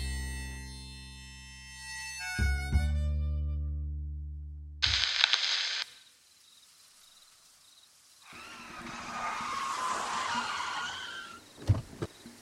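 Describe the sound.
A car driven recklessly, skidding, with a sudden loud burst of noise partway through, a stretch of rough rushing tire and engine noise afterward, and a sharp bang near the end.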